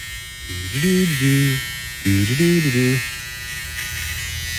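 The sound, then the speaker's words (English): An electric razor shaving off an eyebrow: two separate bursts of buzzing, each about a second long, with the motor's hum wavering in pitch as it presses against the skin. “Now what are we shaving? The other eyebrow.”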